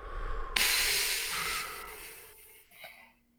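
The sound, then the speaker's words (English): A slow exhale follows a deep breath, a long breathy hiss that starts abruptly, then fades gradually over about three seconds to near silence. “Deep breath in. Game face. And release it slowly.”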